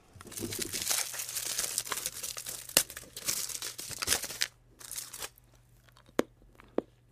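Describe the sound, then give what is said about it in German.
Crinkling foil as a milk chocolate Santa Claus is unwrapped: a busy stretch of crumpling and tearing, thinning into scattered crackles and a few sharp snaps. “Jetzt geht es meinem Schokoladen-Nikolaus an den Kragen.”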